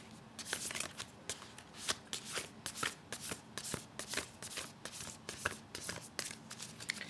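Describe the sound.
A brand new deck of cards being shuffled: many quick, crisp riffling bursts repeat in an uneven rhythm, with short snapping bridges between them. The sound is clear and steady, and there is no talking.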